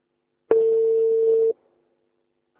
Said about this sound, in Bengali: কথা বলতে না বলতে আরো একজন ফোনে কানেক্ট হয়ে গিয়েছেন